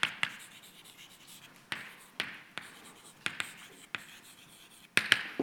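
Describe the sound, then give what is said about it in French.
Writing on a board: faint, irregular sharp taps and short scratchy strokes spaced across several seconds, with quiet pauses between and no talking. “J'écris seulement que l'énergie injectée”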